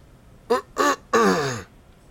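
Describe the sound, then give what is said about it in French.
A judge clears his throat in a courtroom with three rough, voiced bursts: two short ones close together, then a longer, drawn-out one that trails off at the end. “s'éclaircit la gorge et rend sa décision”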